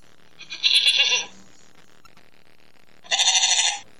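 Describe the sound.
A sheep bleats twice, two loud nasal calls each lasting under a second, separated by a quiet pause of about two seconds.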